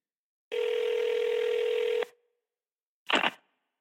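A telephone tone sounds as a call is placed from a call-in radio station: one steady, level tone holds for about a second and a half and cuts off. After a short silence a brief, higher burst follows.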